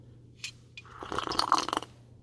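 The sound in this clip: A quick slurp from a drink, a short, wet, airy sip lasting about a second, fairly quiet over a low, steady hum.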